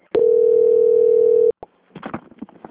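A telephone call-transfer tone plays as a single steady mid-pitched beep for about a second and a half, followed by a click and faint line noise.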